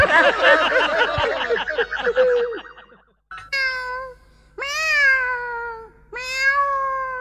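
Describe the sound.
Three clear cat meows follow a stretch of busier, warbling sounds; the calls are loud and drawn out, with the middle one the longest.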